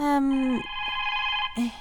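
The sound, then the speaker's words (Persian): A telephone rings with bright electronic tonal notes, fairly faint, in two short bursts separated by a brief pause. “که تلفن زنگ خورد. اجازه بدین که من تلفن جواب بدم.”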